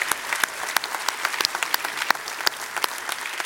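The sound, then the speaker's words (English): Applause from a standing church audience: steady, dense clapping with sharp individual claps popping out, continuous and even throughout. “Let's give them a big hand out there.”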